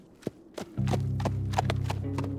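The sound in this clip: Horse hooves clop as a rider turns a horse: a few sharp, separate clops, then a steady low droning tone continues beneath lighter hoof taps.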